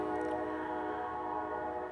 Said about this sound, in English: I said whenever I move out of here, I'm gonna miss these trains